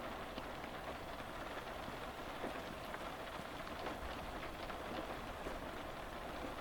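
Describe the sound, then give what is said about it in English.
Heavy rain lashing against the window of a Highland express train at a platform, a dense, unbroken hiss of drops with scattered sharper taps, steady in level and with no voices. “rain now lashing against the window”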